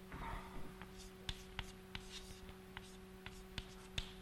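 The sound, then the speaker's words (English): Faint writing, with soft scratchy strokes and light taps spaced irregularly over a low steady hum. “let me write F1 to the N gamma.”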